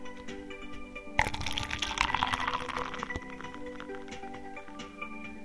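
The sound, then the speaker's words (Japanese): Drinks being poured from freshly opened bottles, a soft splashing pour that starts abruptly, runs for roughly two seconds and then trails off into quiet, faint throughout. “それでは、ついでいきますよ。”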